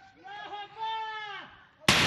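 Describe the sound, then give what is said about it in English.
Sharp gunshot report from Afghan forces firing in a provincial capital stormed by the Taliban, a single sudden loud blast at the very end following a drawn-out wavering tonal wail. “Afghan forces firing shots in the capital of Badghis province after the Taliban stormed the city”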